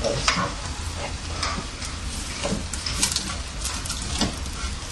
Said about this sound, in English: Leftover rice last night, huh? Mm. Put it in together.